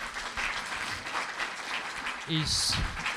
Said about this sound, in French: Il faut qu'on applaudisse encore pour cette équipe de louanges